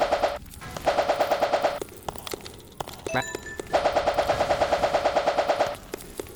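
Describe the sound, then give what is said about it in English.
Rapid automatic gunfire from a video game crackles in two long, loud bursts of evenly spaced shots, separated by a quieter stretch of scattered sounds. “Start shooting.”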